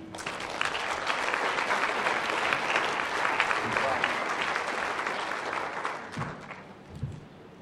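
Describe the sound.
An audience at an Alcoholics Anonymous panel applauds to welcome a panelist, with dense, steady clapping that holds for about six seconds, then thins out and fades.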